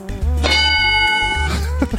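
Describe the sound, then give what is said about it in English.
A bell struck once rings out with a bright, sustained metallic tone that holds for about a second before fading, over a low throbbing pulse. “That was the penis becoming erect and hitting the bell next to it.”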